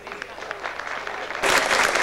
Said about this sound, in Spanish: Algunos padres y autoridades aplauden de pie.